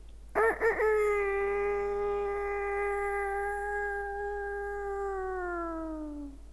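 A chick with an injured neck calls out loudly like a rooster: two short clucks, then one long, strongly harmonic crow that holds steady for several seconds and dips slightly in pitch at the end.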